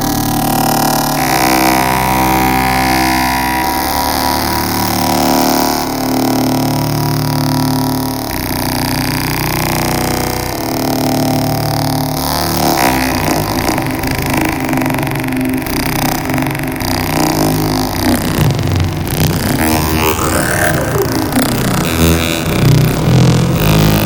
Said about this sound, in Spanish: Muy buenas modificaciones. ¿Quieres que lo escuchemos? Y así vemos a ver qué es lo que puede hacer el Benjolín.